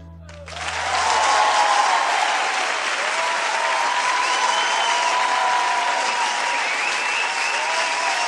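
Audience applause after a song swells in within the first second, then holds as a steady, dense wash of clapping to the end.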